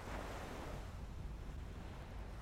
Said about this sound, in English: You stand for a moment, then you walk to the edge of the sea, where the waves tumble into foamy wavelets that lap the shore.